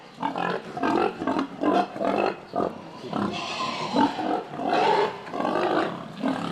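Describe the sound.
Grunts and squeals of an inexperienced, impetuous boar mounting sows on an organic pig farm: many loud, rough bursts in quick, uneven succession, with no talk.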